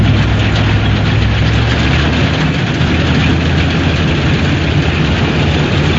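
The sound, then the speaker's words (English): A combine harvester's heavy engine runs at work in a loud, continuous low drone that holds steady without change, with no voices over it. “if you recognize that sound, you know for sure that's the sound of a combine harvester at work”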